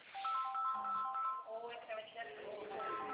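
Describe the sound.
A telephone ringtone plays a steady electronic melody of short, bright tones through the whole stretch, with people talking over it.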